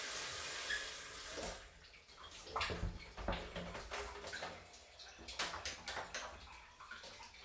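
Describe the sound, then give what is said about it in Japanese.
Water splashes and sloshes in a bath as a body is washed: many irregular wet splashes and trickles, fairly faint and uneven in rhythm. “体洗ってあげるね。”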